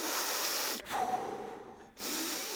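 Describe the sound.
Deep, slow breathing from a person demonstrating a breathing exercise: loud, airy, steady breath noise with a brief break and a quieter stretch, and no talk.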